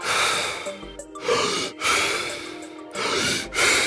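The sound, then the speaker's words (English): Deep, fast breaths from a breathing exercise, demonstrated by a person: a few loud, rushing breaths in quick succession, alone with no talk. “the breathing is essentially, 30 deep, fast breaths. It sounds a little bit like this”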